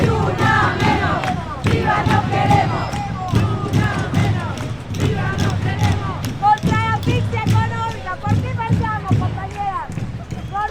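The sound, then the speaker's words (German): A crowd chants at a Ni Una Menos street protest against femicide. The chanting is loud, rhythmic and in unison, punctuated by shouts and regular percussive beats throughout. “Und du hast auch einen Ton der Proteste mitgebracht.”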